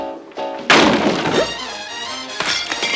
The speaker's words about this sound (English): falls to the floor, face down.